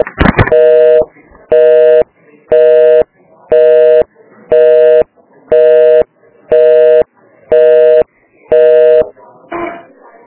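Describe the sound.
Telephone call transfer tones: nine evenly spaced, loud electronic beeps in a regular on-off rhythm, with a brief click at the start and a short rustle at the end.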